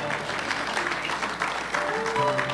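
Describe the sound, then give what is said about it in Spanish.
Applause from a church audience during a sermon: a dense, steady patter of clapping that stays fairly loud and continuous throughout. “Dele un aplauso fuerte al Señor.”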